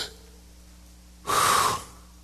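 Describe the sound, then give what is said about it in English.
A single sharp gasping breath, a loud breathy rush lasting about half a second that stands alone against quiet. “as long as you could lift up your toes, you could take a breath.”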